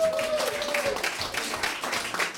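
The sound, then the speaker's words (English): Friends give a round of applause in a garage, a fairly quiet, steady crackle of many hands clapping across the whole clip. “we should give them a round of applause for being cool, for letting this shit happen”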